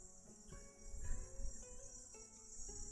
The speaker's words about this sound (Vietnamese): Đấy, bây giờ còn có tiếng ve kêu này.